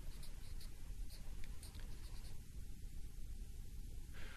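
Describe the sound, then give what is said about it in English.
Someone writes something down, producing a soft, continuous scratching of strokes over a low steady hum, faint and without voices. “Let me write this down.”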